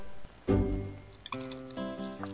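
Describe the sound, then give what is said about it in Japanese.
Milk is poured into a cup until it spills over, opening with a brief splashy gush of liquid followed by softer, uneven pouring and dribbling sounds over a steady tonal background. “何のっけからミルク注いでんですか。 会長、ミルクがこぼれております。”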